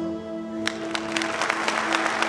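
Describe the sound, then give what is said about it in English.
Scattered applause at an awards presentation following a reading: many sharp, separate claps start after a short pause and continue over a steady low hum. “There is applause.”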